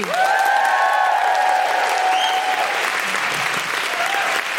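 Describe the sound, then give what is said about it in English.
A live audience applauds and whoops for a stand-up comedian taking the stage. Dense, loud clapping runs throughout, topped by a couple of rising high woohoo cries near the start before the applause slowly eases. “Then please put your hands together and make general woohooing noises for Cindy V.”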